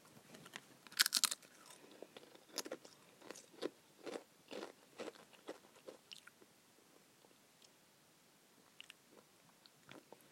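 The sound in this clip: Crunchy biting and chewing on pizza-flavoured Pringles crisps that smell strongly of currywurst. Loud sharp crunches come first, followed by many smaller, softer chewing crackles that gradually fade.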